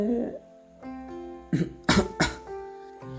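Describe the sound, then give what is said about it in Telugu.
Three short, sharp coughs in quick succession near the middle, rising above a quieter steady tonal background, with no talk over them. “ఏమండి దగ్గుతున్నారు ఎవరో తలుచుకుంటున్నట్టున్నారు అని అంది జాన్వి”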